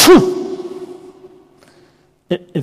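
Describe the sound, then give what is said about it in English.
A voice imitates a horse sneezing in a hall, with one sharp explosive burst that drops in pitch and leaves a long ringing tail, followed by two brief vocal sounds. “it's literally the same word that means a horse sneezing.”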